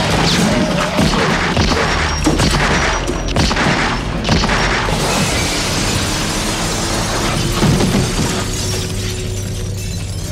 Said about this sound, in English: two people shooting each other at the exact same time.